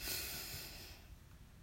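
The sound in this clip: A deep breath drawn in through the nose during a guided meditation breathing exercise, a loud airy hiss that fades after about a second into soft, quiet breathing.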